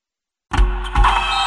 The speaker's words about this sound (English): I meant those blackout motorized shades. MVP of the room.